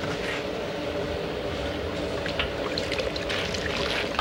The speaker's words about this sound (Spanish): Sopla en la boca del pato hasta inflar la piel. Luego lo riega con caldo.